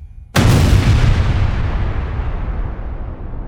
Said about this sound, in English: the explosives aboard the SS Mont Blanc detonated